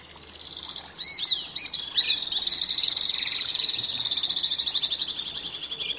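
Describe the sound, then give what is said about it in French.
White-bellied swifts call in high-pitched, rapidly repeated single-syllable notes that run together into a continuous, shrill trill, steady in loudness and without voices. “alors que les martinets à ventre blanc ont des cris plus exotiques à une seule syllabe répétée.”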